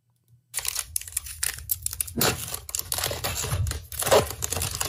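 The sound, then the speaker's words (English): A child ripping open a foil pack of 2020 Bowman Chrome baseball cards: after a brief rustle, several seconds of dense, crackly tearing and crinkling, with no talk. “Kid all ripping right up his own pack.”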